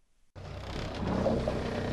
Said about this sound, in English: The Holly Joe's engine purrs like a sleeping cat as we motor through the swells toward the wreck of the Lusitania.